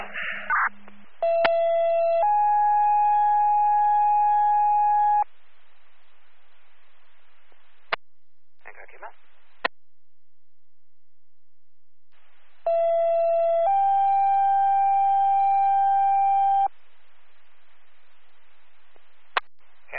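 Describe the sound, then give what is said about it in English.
Fire and EMS radio dispatch alert tones: two separate sets, each a short steady tone stepping into a longer one, with quiet gaps and radio clicks and static bursts between. “911, Chalk Creek 2, acknowledging tones.”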